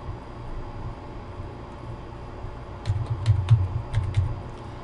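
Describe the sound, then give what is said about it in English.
Keys clatter on a computer keyboard as a command is typed into Windows PowerShell. A quiet stretch gives way to a quick run of many light clicks that grows briefly louder, then stops. “I'm going to go ahead and type in the following command. I'm going to type uninstall”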